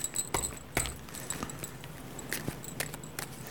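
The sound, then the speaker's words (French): A deck of cards being shuffled briefly during a card reading: soft, papery flicks and riffles in a few quick bursts, faint and irregular, with no voices. “Je prends le jeu, je mélange un petit coup pour bien mettre d'autres énergies.”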